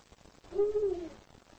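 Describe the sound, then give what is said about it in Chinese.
A male eagle owl calls at night, one deep, low hoot lasting about half a second, heard alone against faint background noise. “远处传来雄性的叫声，这是在欢迎雌性。这只巨大的雕鸮像国王一样巡视着自己的领地。”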